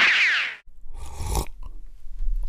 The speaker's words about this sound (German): So, nochmal einen kräftigen Schluck Kaffee